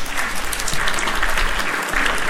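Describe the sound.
Audience applause, a short burst of dense clapping that stays steady and fairly loud for about two seconds without a break.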